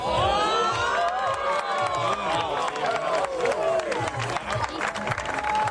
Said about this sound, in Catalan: Mireu, com que no podem descriure a vegades en paraules el que vivim, escolteu la reacció de la gent.